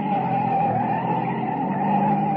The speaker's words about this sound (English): Hold on now. We're going to make this corner on two wheels.